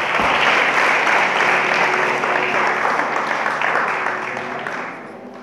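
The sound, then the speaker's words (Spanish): Congregation applause during a sermon, a loud, dense burst of clapping that starts at full strength, holds steady, then thins out and fades in the final second. “¿Cuántos le pueden dar un aplauso al Rey?”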